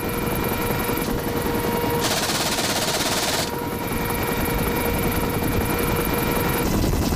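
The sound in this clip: A Lynx Mark 8 helicopter's rotor roar runs loud and continuous under bursts of rapid fire from its half-inch caliber machine gun, with no voices.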